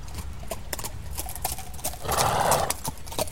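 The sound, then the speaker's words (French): Clip-clop of horse hooves as a horse arrives back from a ride, a steady run of hoof strikes with a breathy burst from the horse midway. “Il est allé faire une promenade à cheval. Mais il ne tardera pas à rentrer. Voyez, voilà déjà son cheval.”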